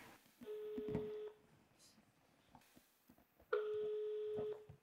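A telephone ringback tone sounds on an outgoing call: two long, steady, mid-pitched tones separated by a few seconds of quiet line.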